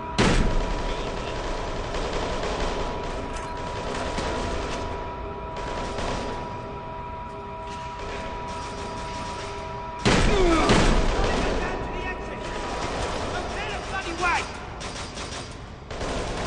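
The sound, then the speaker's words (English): Bursts of gunfire over a constant background noise, with rapid cracks and thumps recurring throughout and one sudden louder burst later on before the shots fade back down. “There's been some more shooting. Okay, well, I can hear that.”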